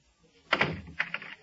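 A door is shut and locked: one fairly faint thud, then a few short clicks of the lock.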